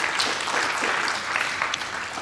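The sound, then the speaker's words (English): Applause from an audience at an event in the Sofitel hotel in Melbourne, a continuous, even patter of many hands clapping throughout the brief clip. “Another round of applause for Terence Murphy.”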